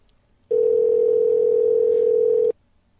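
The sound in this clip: A telephone dial tone on a call back, one steady, unbroken hum lasting about two seconds that starts and stops abruptly, with near silence before and after.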